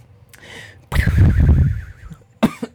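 Harsh coughing and throat clearing: a long, rough cough burst, then a quieter stretch of raspy throat noise and a final short, sharp cough near the end, loud and without speech.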